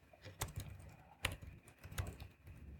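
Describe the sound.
Keys tap on a computer keyboard while math notation is being typed. The faint, irregular clicks come in a few separate bursts, with one sharper stroke in the middle.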